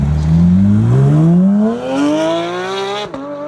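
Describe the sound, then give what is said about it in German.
A Porsche 911 sports car engine revs hard, its tone climbing steadily in pitch as it accelerates, then breaking off briefly near the end before carrying on; loud and alone, with no voices. “Porsche? Ja, ein Porsche 911, ja, genau.”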